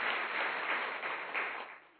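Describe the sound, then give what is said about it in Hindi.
Warm applause from an audience welcoming a guest speaker from Nairobi, a dense, steady patter of many hands clapping that tapers off at the end. “आपका हम बहुत बहुत करतल ध्वनि के साथ स्वागत करते हैं।”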